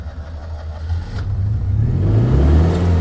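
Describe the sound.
A car engine starts on a damp day: a low, uneven mechanical rumble that builds and steadies after about a second and a half into a louder, continuous engine hum with rising revs, with no talk over it.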